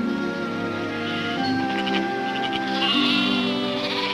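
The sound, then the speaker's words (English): A flock of sheep herded across a large grassy field bleats with overlapping, wavering calls. The bleating is fairly soft and continuous, with no voices. “In a large grassy field, an old man with a dog herds a flock of sheep.”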